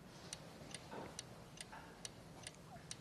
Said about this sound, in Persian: ساعت اتاقم. این هر کی میدید فهم میکرد عقبه.